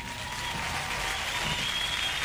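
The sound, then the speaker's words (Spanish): A studio audience of a Spanish-language show applauds in a dense, sustained wash of clapping that holds at an even level from start to finish. “¡Aplausos, aplausos!”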